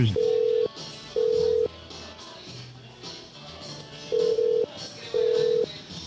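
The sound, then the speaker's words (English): Telephone call-transfer tones: four steady, identical mid-pitched beeps of about half a second each, arranged in two pairs with a longer gap between the pairs, over faint background sound. “You are being transferred to the operator.”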